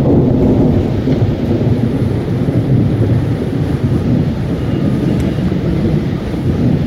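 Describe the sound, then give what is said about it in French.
Storm sound effect with thunder, rain and wind: a loud, continuous low rumble and rushing noise roll without a break from start to finish. “un vacarme retentit, comme si un ouragan se déchaînait derrière la fenêtre et qu'une multitude de vents hurlait en soufflant dans toutes les directions.”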